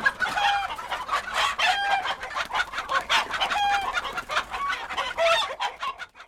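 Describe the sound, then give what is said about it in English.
A chicken clucking and crowing, with many short, rapid clucks in a busy, uneven rhythm and thin high tonal calls woven through, loud and continuous throughout. “Listeners, it's the humble chicken. We heard a chicken.”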